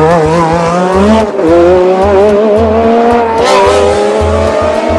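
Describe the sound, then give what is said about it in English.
A Formula One race car skidding off the road into the tyre barrier: a loud, sustained high engine howl with shifting pitch and a tyre squeal. “That's Patrese in the tyres. Riccardo Patrese, the Monte Carlo winner, is off the road.”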